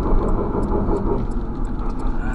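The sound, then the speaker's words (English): Steady engine rumble and road noise from a car with worn brakes pulling into a gas station. A continuous, fairly loud low drone holds throughout with no distinct separate events. “I think it's time for a brake job.”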